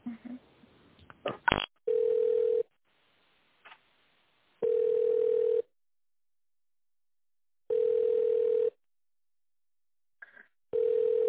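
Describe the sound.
Phone ringback tone on a business line while a call is being transferred: steady, mid-pitched beeps about a second long, repeating every few seconds in four bursts, the last cut short, after a few brief clicks and line noise at the start.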